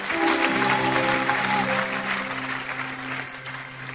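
An audience applauds and acclaims during a worship service, a dense clapping that is loudest at first and then eases, over sustained, steady musical tones held underneath throughout.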